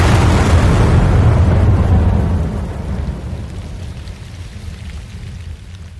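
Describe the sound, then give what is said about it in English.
A blasting explosive detonates with a heavy, broad roar that is loudest at the start and slowly tapers into a lingering low rumble. “No, it is blasting explosive.”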